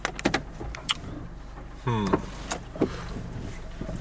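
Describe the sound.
A car is driven one-handed through a Sheetz parking lot: a steady low engine rumble runs throughout, with scattered clicks and rattles and a brief whirring mechanical motor sound in the middle.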